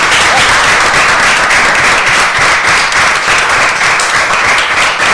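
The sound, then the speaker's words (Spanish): Loud, dense applause from an audience present at the close of a live event, a continuous roar of many hands clapping that holds steady from start to finish. “yo creo que esto solo se puede finalizar de una forma, con un aplauso.”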